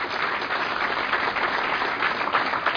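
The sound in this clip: Steady audience applause showing appreciation for volunteers at a breakfast gathering, a dense, even wash of many hands clapping with no pause.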